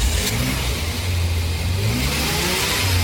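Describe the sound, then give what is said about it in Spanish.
A car engine revs on a street, a loud, continuous low rumble whose pitch rises and falls as the throttle is worked. “Estamos en plena calle haciendo la nota a un excelente motor a quien ya preguntamos cómo se siente.”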